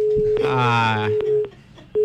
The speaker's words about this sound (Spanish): Ahí está, se queda la llamada. Es el problema del teléfono.